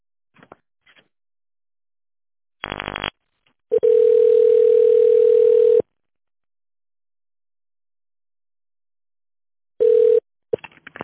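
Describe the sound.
A company phone line plays a steady single-pitch line tone for about two seconds while an extension is dialed, then sounds a short repeat of the tone. Brief clicks and a buzzy burst come before the tone.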